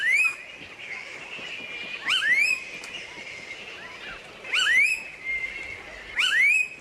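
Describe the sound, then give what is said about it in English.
Blue-faced honeyeater, an Australian honeyeater, gives a few repeated calls, each a sharp upward-sweeping whistled note with a thin high overtone, spaced apart by a couple of seconds over a faint hissy background. “Phil correctly identified that it is the blue-faced honeyeater. The blue-faced honeyeater is one of 70 or so honeyeaters found in Australia.”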